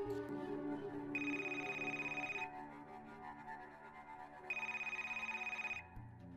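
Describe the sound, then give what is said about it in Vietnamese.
A telephone rings twice in the middle of the night. Each ring is a long, bright electronic trill over a steady low background, with a short pause between them. “Hai giờ 30 sáng, tiếng chuông điện thoại của Duy bất chợt vang lên.”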